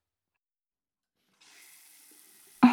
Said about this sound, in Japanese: シャンプー、お湯で流しちゃいますね